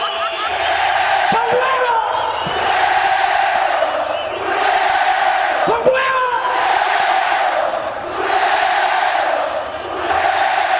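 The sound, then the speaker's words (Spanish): An audience chants European-style football chants together, a loud, sustained mass of voices that swells and dips in waves about every two seconds, with a couple of sharp slams cutting through. “Cuando el público empieza a entonar cánticos europeos, que se oiga.”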